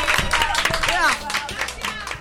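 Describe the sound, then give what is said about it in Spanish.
Applause from a small group of students honouring a performer: a burst of claps lasting about two seconds, with voices calling out and cheering over it. “¡Un aplauso! ¡Bravo, Oscar! ¡Bravo!”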